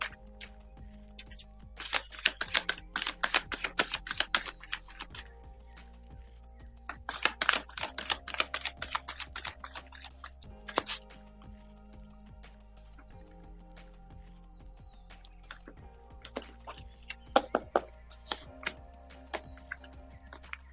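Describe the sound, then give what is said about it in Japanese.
Tarot cards being shuffled: several bursts of rapid, crisp papery riffling and clicking, separated by quieter stretches with a low steady hum underneath. “カードシャッフルしております。”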